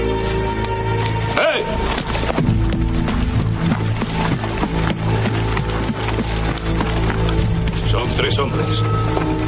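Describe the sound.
Horse hooves clip-clop as a rider leaves on horseback in a western film scene, with many steady hoof strikes throughout and speech over them.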